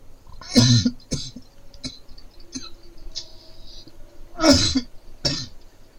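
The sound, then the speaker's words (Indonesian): A person coughs and clears their throat, with two strong rasping bursts well apart and several smaller, short coughs and throat noises between them, all against a quiet background. “Maaf batuk.”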